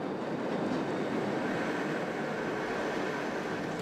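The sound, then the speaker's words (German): The Jungfrau mountain railway train runs with a steady, continuous rumble and clatter of wheels on track, loud and even throughout, with no voices. “Die Jungfraubahn, eine Königin der Bergbahnen.”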